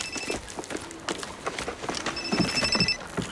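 A telephone ringing in a crime drama scene, with thin, high bell-like bursts at the start and again near the end over a busy background patter.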